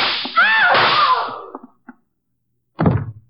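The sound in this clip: A staged gunshot sound effect in a dramatized scene: one sharp, loud bang with a quick decay, after a stretch of near silence.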